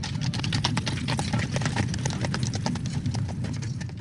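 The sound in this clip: Galloping horse hoofbeats as a sound effect, a continuous, rapid clopping that stays fairly loud and even throughout.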